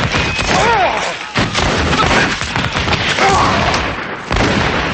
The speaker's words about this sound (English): The redcoats shoot, and Continental soldiers fall. Thomas steps into the doorway and watches. The redcoats continue shooting, and more Continental soldiers fall.